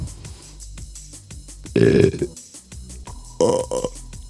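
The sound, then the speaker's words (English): Two loud, guttural burps break out in turn against a steady pulsing rhythmic background. The second burp is shorter than the first. “That's like eight burps”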